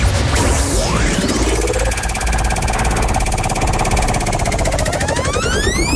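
A prize wheel spins on a French game show, giving a loud, continuous run of rapid ratcheting clicks that lasts the whole stretch without pause.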